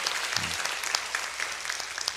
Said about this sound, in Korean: 오늘 귀한 찬양과 예배 또 일주일간의 특세를 통하여서 우리 영광 받으신 우리 하나님 앞에 감사와 영광의 박수 올려드립니다.